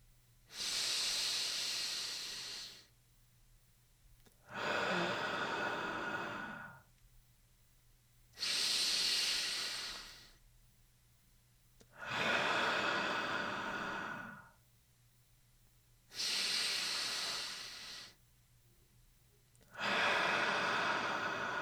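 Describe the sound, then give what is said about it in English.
Slow, deep breathing in and out during a guided morning stretch, about three seconds per breath. Six loud, breathy rushes alternate between inhale and exhale in a steady rhythm, with short quiet pauses between them and no talk. “Count 3 seconds for the inhalation and 3 for the movement of the air out. You can breathe along with me.”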